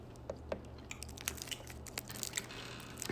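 Chewing and wet smacking while eating something strawberry-flavoured: many quiet, irregular crunchy clicks and squishes come close together, with no voice.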